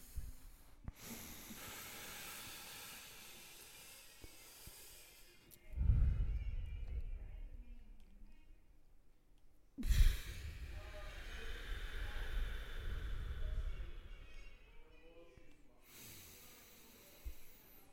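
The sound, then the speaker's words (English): Long, deep breaths in and out taken during a slow breathing exercise: broad, airy hissing that swells and fades over several extended stretches, with brief quieter gaps between them. “You just take as long a breath as you can.”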